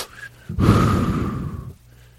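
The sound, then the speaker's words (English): A deep breath is drawn as one loud, breathy rush of air lasting a little over a second, then fading off. No words are spoken over it. “Okay, take a deep breath.”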